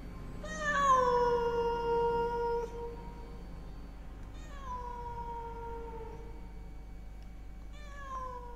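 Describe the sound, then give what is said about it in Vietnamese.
A black cat meows three times around a market neighbourhood at night. The first wail is long, drawn-out and loudest, with gently falling pitch, and two fainter meows follow after pauses. “Đâu đó tiếng của con mèo đen vẫn cứ kêu lên loanh quanh xóm chợ.”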